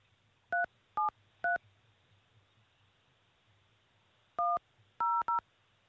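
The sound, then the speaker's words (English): Telephone keypad tones as a six-digit PIN is entered: a quick run of sharp electronic beeps, a pause, then a final cluster of closely spaced beeps over faint line hiss. “Enter your 6-digit PIN number.”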